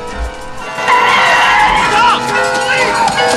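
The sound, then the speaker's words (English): Tyres skid loudly as a car swerves to a stop in a street during an armed gang's chase. A long, sustained squeal with wavering pitch starts about a second in, over rumbling street noise. “A car swerves to a stop in front of them.”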